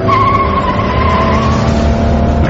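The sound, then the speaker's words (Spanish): A car doing over 100 km/h skids as it speeds out of a curve on a road, a loud, high tire squeal held over a constant engine roar, the squeal thinning out in the second half. “El vehículo se puso a más de 100 kilómetros por hora y al salir de la curva estuvo a punto de perder el control”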